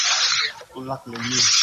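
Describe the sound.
Rasping, hissing sanding of a panel that will serve as a shop front in an exhibition space, worked by someone on a ladder. It comes in two long, loud bursts separated by a brief stretch of speech.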